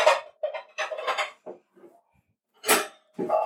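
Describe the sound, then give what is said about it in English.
Utensil clinks and scrapes against a bowl as enchilada filling is mixed with sauce, heard as several short bursts separated by pauses. “I might have should have gotten a bigger bowl. Here. So we want to mix that with this and with a third of the enchilada sauce.”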